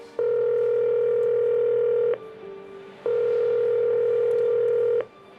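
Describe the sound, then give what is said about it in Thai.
A telephone ringback tone sounds on an outgoing call that goes unanswered: two long, steady, even-pitched tones, each about two seconds, separated by a short pause, with no voices. “ทำไมป้าไม่รับสายสักทีเนี่ย”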